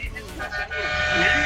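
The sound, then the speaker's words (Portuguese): Car horns honk during a street honking demonstration, sustained bright tones rising out of a noisy background in the second half, with voices mixed in. “Fala aí, buzina aí, buzina aí. Ó, os caras buzinando, ó.”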